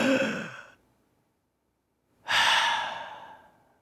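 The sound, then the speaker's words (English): A speaker takes audible breaths: one short breathy rush of air fades out at the start, then after about a second of silence a longer, louder breath rises sharply and slowly fades away. “I'm speaking really quickly in a really long sentence, and I need to take a breath right about now.”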